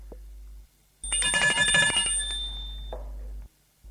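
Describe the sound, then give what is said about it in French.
A doorbell rings once, a bright metallic electric ringing lasting about a second over a steady low hum, followed by a faint brief sound before the hum cuts out. “Dans l'après-midi, l'on sonne.”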